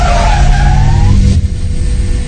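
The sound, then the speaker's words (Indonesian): A car brakes suddenly and its tires skid, giving a loud, high screech that drifts slightly downward in pitch over a heavy engine rumble. The squeal stops after about a second, leaving the low rumble alone. “Aku mengerem mendadak.”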